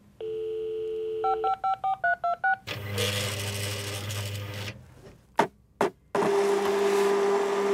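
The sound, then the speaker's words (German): A 1990s-style office fax machine beeps through a tone, then a rapid string of dialing beeps, before a loud harsh hissing handshake, a few abrupt bursts, and a steady tone over noise. “es ist ein Fax. In den 90er Jahren hat sie in jedem Büro so ein Gerät gehabt, wo man konnte Text und Bild verschicken konnte. Und auch bei vielen Leuten zuhause hat ein Fax piepst und gerattert.”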